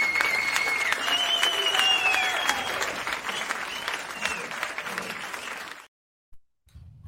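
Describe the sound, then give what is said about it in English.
Applause from an AI-generated live studio audience: dense, steady clapping with no talk over it, holding for about six seconds before it stops abruptly into silence. “Is that an actual live studio audience? It is. We have a live studio audience with us today. Amazing. AI version of it.”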